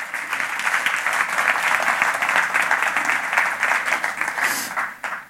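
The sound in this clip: Warm applause from a church audience welcoming a speaker to the front, a dense, steady patter of many hands clapping for about five seconds before it tapers off at the end.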